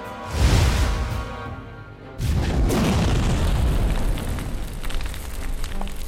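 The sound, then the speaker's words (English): A red magic beam fires from a fingertip and explodes into a chest: a loud boom fades into rumble, then a second, heavier blast turns into a long, sustained roar. “And you see this little beam of red appear at the tip of his finger, then fire off and explode into your chest as you take 20 points of damage.”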